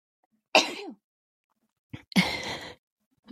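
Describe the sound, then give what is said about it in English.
A sneeze, heard as a sharp, breathy burst, then a short intake of breath and a second, longer explosive burst, with quiet between them. “And okay, now I have to sneeze, you guys.”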